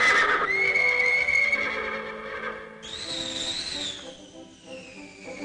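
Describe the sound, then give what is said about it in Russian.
Horses neighing, two black horses with golden manes: a long, loud, high whinny followed by a second, higher-pitched whinny, heard alone without speech. “Снова поднимается маленький вихрь, раздается ржание. Откуда-то появляются два прекрасных черных коня златогривых.”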